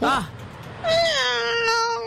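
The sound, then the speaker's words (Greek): A person imitating a cat meowing with the voice: a short nasal yowl, then a longer, drawn-out meow that dips slightly in pitch and holds steady to the end. “Εγώ νομίζω κάνω πάρα πολύ καλά τη γάτα.”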